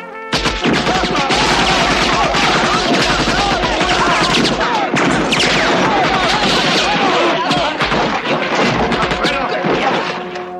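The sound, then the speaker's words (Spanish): Dense bursts of AK-47 assault rifle fire, loud and continuous almost throughout, with many sharp overlapping cracks and only a brief break near the middle. “es el rifle de asalto AK-47, el arma preferida de vuestro enemigo. Hace un ruido característico cuando lo disparan, así que recordadlo.”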